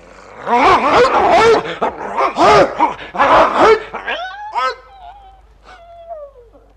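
A dog yelps and whimpers: several loud, harsh yelps come first, then thinner, higher whimpers that trail off and grow fainter.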